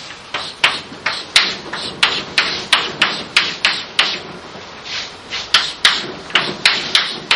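Pen or marker strokes of someone drawing a sketch: many short, scratchy bursts with sharp clicks in a quick, steady rhythm. They are fairly loud and heard alone, with no talking.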